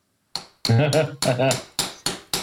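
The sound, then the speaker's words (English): A chisel striking stone as a sound effect: a voice is heard first, then three sharp, bright strikes, each decaying quickly. “Boys, the chisel is out. It is hard, like a cut through stone.”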